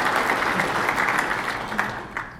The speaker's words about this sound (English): This is a Guelph Proud moment, and we should all applaud that we are back at that same table.